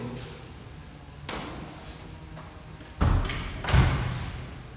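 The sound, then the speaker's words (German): A door being shut quickly in a shop with a counter and till: two dull thuds close together near the end, following a softer bump earlier, over faint background noise. “Ich mach mal hier schnell die Tür zu”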